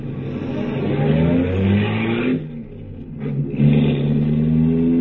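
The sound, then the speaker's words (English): A car engine revs while driving, holding a strong, steady note that drops away briefly midway and then climbs back up loudly. “Impressive machine, this. I love it, but I'm really not used to it yet. I just got it last week. You drive it very well.”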